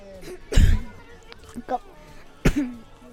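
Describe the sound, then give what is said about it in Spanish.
A person coughs several times in short, harsh bursts spread across the moment, mixed with throat-clearing sounds among people talking. “Hay una persona con tos.”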